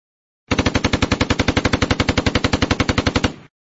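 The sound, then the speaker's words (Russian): Rapid automatic gunfire from machine guns and automatic rifles opening up in a forest firefight. One long, loud burst of about thirty evenly spaced shots at a steady rhythm lasts roughly three seconds, then stops abruptly. “И тут же по русским ударили пулеметы и автоматы.”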